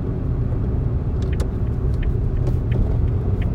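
Steady low engine and road rumble from a car being driven, an even, unbroken drone with no talk.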